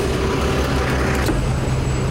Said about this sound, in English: Some beer trucks.